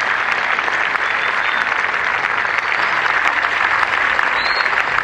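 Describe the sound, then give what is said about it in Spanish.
At a formal ceremony attended by diplomats, a crowd breaks into loud, sustained applause, dense clapping from many hands that stays even and unbroken for several seconds. “Un aplauso, por favor, muchachos, para los”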